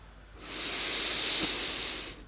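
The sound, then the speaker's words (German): A single long breath is drawn in through the nose during a seated, upright breathing exercise. The airy hiss swells, holds steady for over a second, then fades, with no other sound. “Und nimmst jetzt einen Atemzug durch die Nase ein.”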